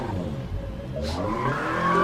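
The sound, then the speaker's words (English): Tires squeal and an engine whines as a car spins out in a racing video game, a continuous skidding screech that grows steadily louder toward the end. “This is really bad. Wait, I think I spun out, so let's back up.”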